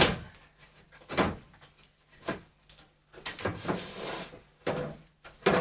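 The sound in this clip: A stuck door is forced open with several faint rattling thumps and knocks, irregularly spaced, separated by quiet pauses.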